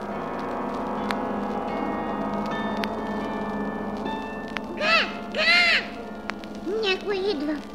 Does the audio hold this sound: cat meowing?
no